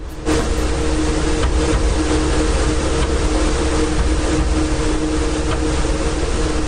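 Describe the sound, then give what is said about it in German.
A server rack fitted with poorly damped hard drives produces a continuous, loud mechanical drone with a low hum and a steady whir running unbroken throughout. No voices. “Das ist mein Server-Rack mit etwas schlecht gedämpften Festplatten. Die machen immer so Holpergeräusche.”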